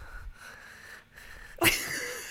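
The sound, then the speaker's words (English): Loud, heavy breathing with a wheezy, rasping edge: steady noisy breaths that end in a sharper, louder burst of air. No talk is heard. “I'm breathing so loudly.”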